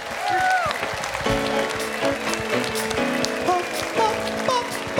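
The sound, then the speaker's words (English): An audience applauds to welcome a singer at a live show, with steady clapping running throughout and a man's voice talking over it. “Come on, y'all. Put your hands together.”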